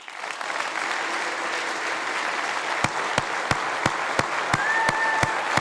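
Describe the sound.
Audience applause welcomes a former footballer and football manager onto the stage at a live interview event. Steady, dense clapping is sustained throughout, and a series of sharper, evenly spaced claps stands out in the second half.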